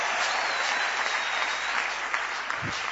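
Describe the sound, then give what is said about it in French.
A church audience applauds to acclaim God during a service. The clapping is dense and steady and stays loud throughout, with no break. “Est-ce qu'on peut acclamer ce Dieu puissant?”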